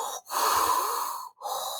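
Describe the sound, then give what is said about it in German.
A person imitates heavy, rasping, snorting breathing, like a mechanical respirator. Two long, loud breaths are split by short silent gaps, heard alone without speech. “Wenn ich irgendwie anfange, stark zu schnaufen, so,”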